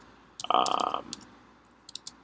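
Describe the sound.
Computer keyboard typing as a search is entered into Google: a few quiet, scattered key clicks with short pauses between them.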